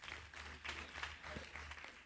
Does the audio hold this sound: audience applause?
yes